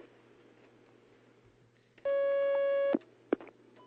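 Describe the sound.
A telephone line tone signals an incoming call on a call-in question program. A single steady, loud electronic tone lasts about a second over a low hum, then cuts off with a click, followed by a short sharp beep.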